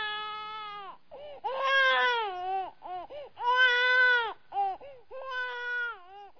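A newborn baby cries in a radio drama, a high, wavering wail in repeated bursts with short gaps between them, heard alone without talk.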